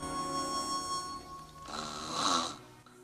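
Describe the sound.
A person snoring in bed: one long, rasping breath swells to a loud peak and then fades away.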